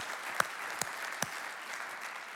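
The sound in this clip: A church audience applauds to welcome online worshippers. Three sharp, distinct claps rise early above a faint, steady wash of clapping.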